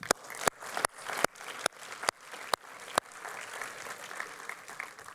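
Applause from a church audience on a Sunday morning welcomes a visiting preacher; a steady wash of clapping is punctuated by several sharp, louder individual claps early on, then continues evenly.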